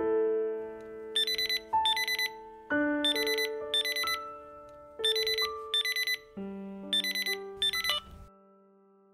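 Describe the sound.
A phone ringtone for an incoming call: a bright electronic melody of short high beeping notes repeats several times in a steady rhythm. The tune plays alone, with no talking.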